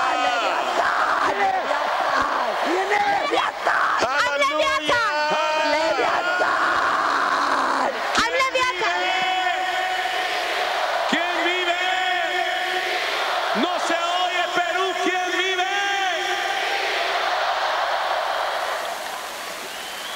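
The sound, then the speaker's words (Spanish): Church audience shouting for joy during a service, many voices yelling, cheering and whooping together in a loud, continuous roar, with individual cries standing out at times. “Dale tu mejor ofrenda de aplausos al Señor. Dale un grito de júbilo. Aleluya. Dale tu mejor grito.”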